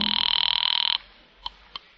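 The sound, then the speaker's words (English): A telephone rings in a fast, buzzing trill for about a second and then stops, followed by two short, faint clicks on the line. “A few rings got an answer.”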